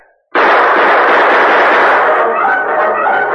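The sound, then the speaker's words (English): Gunfire from outlaws in a radio drama erupts suddenly out of silence as a loud blast, then carries on as a sustained roaring burst that eases slightly toward the end. “As the torch flared through the darkness, the outlaws opened fire.”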